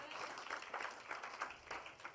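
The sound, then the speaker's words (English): An audience claps for the Lord Jesus during a church service, producing quick, overlapping hand claps at a fairly faint level that pulse unevenly throughout. “Clap for the Lord Jesus.”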